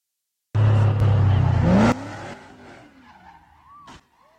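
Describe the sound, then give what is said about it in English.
Car tires squeal loudly in a burnout on a newly opened bridge in Los Angeles, a harsh, sustained screech lasting over a second that then drops to a quieter, rougher rumble. “So they're trying to make these tire burning things, and so it becomes extremely dangerous for everyone.”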